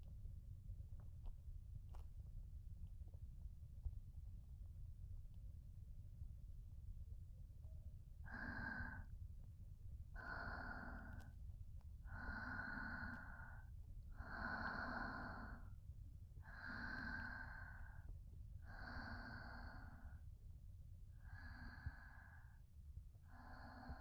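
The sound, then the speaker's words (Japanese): A mother's calm, slow breathing. After a quiet opening, a series of soft, evenly spaced breathy rushes follows, faint overall. “ママの呼吸の音、落ち着くね。”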